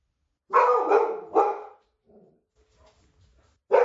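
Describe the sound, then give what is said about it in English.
A pet dog barks at something outside: three sharp, loud barks in quick succession, then a pause with faint small noises, then another bark at the end. No voices are heard. “Give me a second. That's my dog. Apparently there's something outside that got her attention.”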